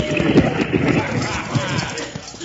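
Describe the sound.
Horse hooves clip-clop in a quick, steady rhythm as a team hauls a stagecoach, with a dense rumbling wash beneath the beats throughout.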